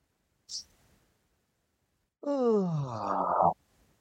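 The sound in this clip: A long, voiced exhale like a moaning sigh during a guided deep-breathing exercise, lasting over a second and gliding slightly downward, preceded by a brief faint click.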